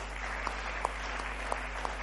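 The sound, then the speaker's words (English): Faint, steady clapping from a church audience during a service, with a few sharper individual claps standing out over the soft wash of hands. “I believe you are going to clap your hand for Jesus.”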